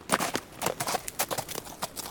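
Horses' hooves clip-clop as a riding party sets out through opened gates: many brisk, uneven hoof strikes, fairly faint, with no other sound.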